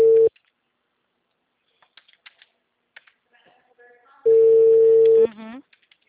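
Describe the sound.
An outgoing phone call's ringback tone sounds as a steady, mid-pitched electronic tone. The tone cuts off right at the start, then after a long near-silent gap with faint clicks, one more tone of about a second plays, followed by brief faint sounds.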